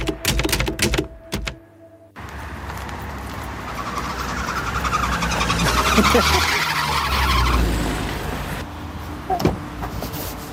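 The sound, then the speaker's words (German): An old Ford Fiesta with an unhealthy engine pulls up. Rattly clattering comes first, then a rough, harsh engine roar swells, holds and fades away. “Ein alter Ford Fiesta hält mit ungesunden Geräuschen vor mir an.”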